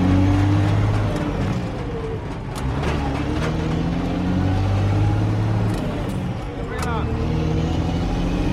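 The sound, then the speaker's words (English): A green truck's engine drones as it pulls in behind a museum, squeezes through a narrow passage, brakes, reverses and parks at a loading dock. The low, steady rumble shifts in pitch as the truck maneuvers. “It negotiates a narrow passage and brakes, reverses, and parks at the loading dock.”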